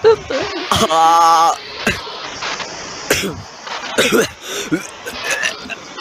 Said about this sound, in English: Why are you choking? Why is he dying? I can't breathe.